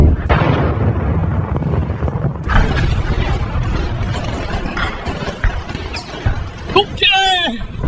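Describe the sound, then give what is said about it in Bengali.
Sound effect of a torpedo fired at a ship and exploding: a loud, roaring blast of low rumbling noise that persists throughout, with a fresh surge partway through and crackling bursts near the end. “Charge torpedo, fire!”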